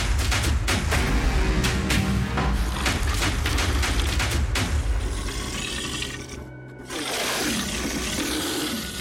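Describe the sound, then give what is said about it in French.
Gunfire as a battalion opens fire on a creature: many sharp cracks in rapid, ragged bursts over a dense, loud din, easing after about five seconds into a lower, rougher rumble. “le bataillon 39 ouvre le feu et repousse la créature.”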